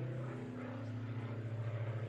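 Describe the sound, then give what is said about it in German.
A propeller airplane flies overhead, one of the frequent planes at this spot. Its steady, low humming drone with layered tonal harmonics holds evenly throughout, fairly faint, with no talking. “Ganz schön oft Flugzeuge hier.”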